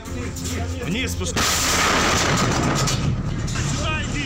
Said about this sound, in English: Explosions and smoke drifting across the rooftops.